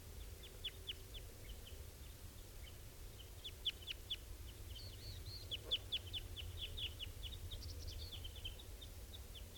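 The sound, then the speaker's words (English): Adult birds feeding young, a run of thin high chirps and short calls repeated at irregular intervals over a steady low rumble, fairly faint, no talk. “What sounds like is going on here is adults feeding young.”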